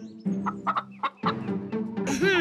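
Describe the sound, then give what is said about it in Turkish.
Chickens cluck while being fed seed: a quick, uneven series of short, throaty calls, ending in a louder, higher, drawn-out call. “Şimdi tavukları besleyelim.”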